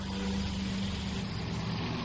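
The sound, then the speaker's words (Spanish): A car on a dirt road gives off a steady engine rumble with a low hum, holding at a constant, moderate level for the whole short stretch. “Un coche se acerca a toda velocidad por un camino de tierra.”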